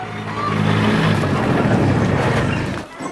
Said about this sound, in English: Crouched over the steering wheel like a racing driver, Travis drives it into the barn where Tom and Fiona wait.